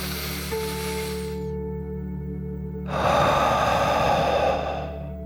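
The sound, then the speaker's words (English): A deep breath in and out during a children's guided relaxation exercise, heard as two long, soft breathy rushes over a steady, gentle musical tone. “Are you ready to take one more deep dragon breath? Here we go. Deep breath, in and out.”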